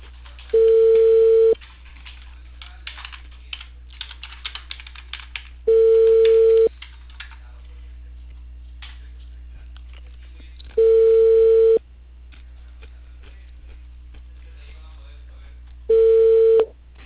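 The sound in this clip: Telephone ringback tone on a call to a cable company about a reported service fault: four steady, evenly spaced tone bursts, each about a second long, with long quiet gaps between them.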